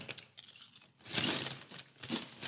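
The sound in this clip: A bag of new sweet barbecue potato chips is torn open and handled, giving crinkling, rustling plastic with two louder bursts of tearing and crumpling between softer stretches.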